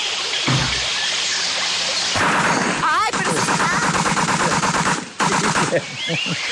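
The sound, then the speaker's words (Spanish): A shotgun fired into the air makes a loud blast within a dense, noisy clatter, with voices in the background. “si quiere echo un tirito al aire para que se calme la situación. No, pues es usted, bueno. Porque no soy yo el que vive ahí. Dale, bueno, tíralo, tíralo, tíralo. Tíralo.”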